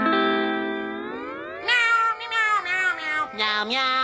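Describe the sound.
Cartoon voices meow like cats to a sea shanty tune. A chorus of loud, sustained, melodic meows steps between pitches, with short breaks between phrases.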